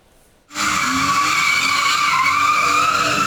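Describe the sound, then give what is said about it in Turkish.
Tires screech as a car drifts on a street in Keçiören, Ankara. After a brief quiet moment the loud, harsh squeal cuts in abruptly and holds steady to the end. “Ankara Keçiören'de drift yaparak hem çevreye rahatsızlık veren hem de trafikteki sürücülerin can güvenliğini tehlikeye atan sürücüye 384 bin lira ceza kesildi.”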